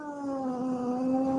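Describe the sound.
A cat's drawn-out meow from an old, grumpy 17-year-old female cat being held against her will. It is one sustained, tonal cry with a slight downward drift in pitch, with no talk over it.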